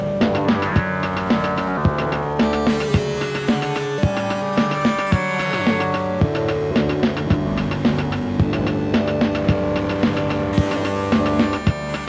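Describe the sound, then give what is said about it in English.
A Hertz Donut synth plays, modulated by a Kermit while its filter is swept. A dense, buzzy harmonic drone has partials that shift in and out, with steady rhythmic ticks running throughout. “Like the Kermit's still messing with the Hertz Donut, so just kind of shifting these frequencies in and out as I'm like sweeping the filter.”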